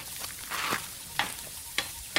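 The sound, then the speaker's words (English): Oud meat sizzles as it is seared and stirred in a pan. A faint, steady frying hiss is broken by a few sharp scraping strokes of the stirring. “There, keep it moving. I just want that meat seared. If there's any hope of it being edible, it simply must be seared.”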